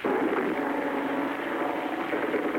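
Japanese bomber aircraft fly over Manila during an air raid, producing a dense, steady droning rumble that stays loud and even throughout, with no talk over it.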